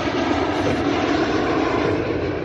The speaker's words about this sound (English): airplane coming through.